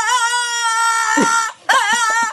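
A dog whining in two long, high, wavering cries split by a short break, loud and with no voices over it.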